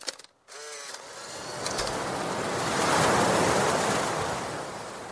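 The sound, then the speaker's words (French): Sea waves wash in as a broad, continuous roar after a brief quiet start with a faint click, swelling to a peak midway and then slowly easing back. “Vous vouliez écouter le bruit de la mer.”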